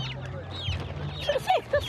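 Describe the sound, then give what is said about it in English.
Chicks being put into a white fertiliser bag give a few short, high peeps and cheeps, loudest near the end, over a low, steady hum. “Across the way, the woman with chicks is doing better. She's putting some of them into a white fertiliser bag.”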